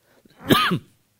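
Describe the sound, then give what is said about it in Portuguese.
A single short cough, voiced and slightly throaty, bursts out once and stops in an otherwise quiet moment. “Essa tuberculose um dia acaba comigo, né? Mas eu estou com uma tosse triste”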